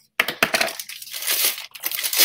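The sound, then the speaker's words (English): Cardboard and plastic packaging rips and crinkles as a cheap Amazon-delivered package is torn open by hand, in loud, dense bursts of tearing and crumpling with a short pause partway through. “is this package that came in. It's only $2, I believe. But bust that open. I don't think I need scissors. It came through Amazon.”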